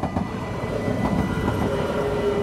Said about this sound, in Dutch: Ik woon ook tegenover de spoorlijn, dat is ook wel een groot voordeel. Oh, daar gaat hij. Ja, het is de blauwe weer.